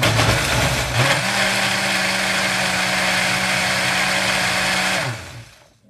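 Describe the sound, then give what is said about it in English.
A blender mixes a sweet and spicy sauce for Korean short ribs. Its motor kicks in after a brief noisy start, holds a steady, loud whirring hum for about four seconds, then winds down and stops. “So I'm going to mix this up again.”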